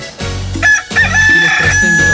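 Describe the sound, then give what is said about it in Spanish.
A rooster crows, a loud, drawn-out call that holds a strong, steady high tone for most of its two seconds, with no talk over it. “Qué sabroso canta mi gallo, poco no, chulo de precioso.”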